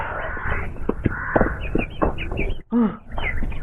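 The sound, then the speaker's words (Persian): A distressed bird caught in a venomous spider's web, letting out a few harsh, rasping caws over a noisy background. “یه پرنده توی دام افتاده. تو دام یه عنکبوت زهردار.”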